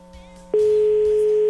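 A phone line rings on a call: one steady, unbroken ringback tone lasting about a second, starting abruptly after a quieter low hum and holding at an even loudness until it cuts off.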